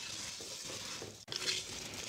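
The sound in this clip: Rice cooks in a pot over low heat while being stirred, giving a soft, steady sizzling hiss that runs throughout with one brief break midway.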